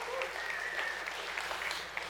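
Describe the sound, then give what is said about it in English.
Applause from an audience at a community fundraising event in Erie, Colorado, a steady, faint patter of many hands clapping continuously. “I'll clap for that.”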